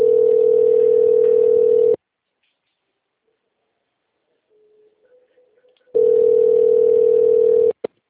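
Telephone ringback tone on an outgoing call connecting to a company's phone line: two long, steady, identical tones of about two seconds each, separated by a roughly four-second near-silent gap, with a faint click at the very end.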